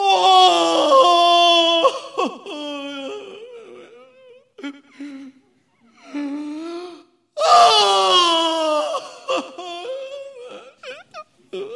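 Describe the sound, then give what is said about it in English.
A man sobs in a room under the eaves high in a castle: loud, wailing sobs in two long bursts, with shorter whimpers and gasping breaths between them and no words spoken. “I found him sitting by a window in a room under the eaves, sobbing and sobbing.”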